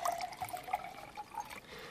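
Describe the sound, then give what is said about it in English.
Elderflower cordial pours into a glass in a faint, light trickle that runs steadily for about two seconds. “Shall I pour you some more elderflower? You finish it.”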